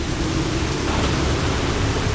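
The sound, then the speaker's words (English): Heavy rain from a fierce storm around a ship in a dramatized scene, a dense, unbroken roar of hissing noise with a low rumbling undertone that stays loud and even throughout, without voices. “This storm grows more and more fierce, and it won't be long before we are all killed.”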